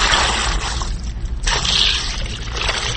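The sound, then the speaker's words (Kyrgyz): Sour milk pours into a cloth bag while the whey drains out, in the making of strained curd for kurut. The liquid makes a continuous splashing, trickling wash that swells and eases without pause. “Мындай кылып калтага куюп, сууну агызып туруп.”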